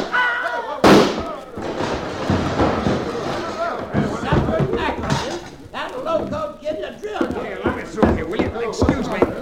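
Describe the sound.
A single sharp gunshot rings out early in an old-time Western radio drama, a loud crack set among men's voices that keep talking throughout.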